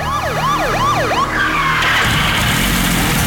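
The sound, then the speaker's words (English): A police car siren racing toward a building along a street, wailing loudly in quick rising-and-falling sweeps, then giving way to a surge of broad, rushing vehicle noise. “Down in the street, a police car races toward the building.”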